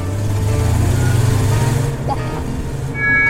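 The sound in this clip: A car engine drives along with a steady low rumbling hum that holds fairly constant throughout.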